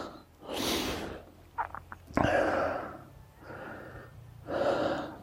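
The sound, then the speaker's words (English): Heavy breathing of a person catching their breath after climbing near the top of a hill: a few deep, rasping breaths in and out, repeating in a slow, uneven rhythm. “I'm just catching my breath. I'm near the top of the hill.”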